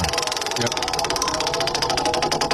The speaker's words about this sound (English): I'm going to give the wheel a spin one more time.